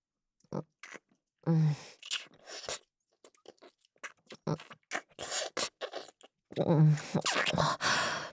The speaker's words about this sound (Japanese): 君のプルプルでおいしそうな唇を見ていたら、ついキスをしてしまったよ。